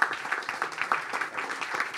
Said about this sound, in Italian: Quindi, diciamo, bravi, applaudite.